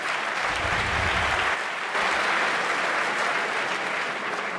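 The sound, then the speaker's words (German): Studio audience applause on a German quiz show, a dense, steady wash of clapping that holds at an even, fairly loud level throughout, with no voices over it. “Die letzte Runde hat euch ziemlich geschafft, dass ihr dafür so klatscht, oder?”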